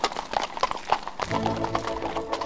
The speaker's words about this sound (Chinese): 漂亮的灰姑娘答应了，她坐着马车向王宫驶去。